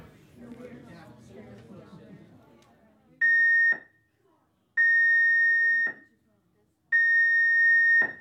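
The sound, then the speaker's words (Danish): A cruise ship's general emergency alarm sounds during a guest safety muster drill: three long, steady, high-pitched tones separated by short silences, following a few seconds of muffled background sound. “The general emergency alarm is about to be sounded for guest safety assembly purposes only.”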